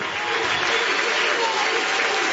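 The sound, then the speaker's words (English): Crowd cheering and applauding at a baseball game, fans on their feet after a strike-two pitch: a steady, dense roar of many voices and hands that holds at an even loudness throughout. “That'll get the crowd going.”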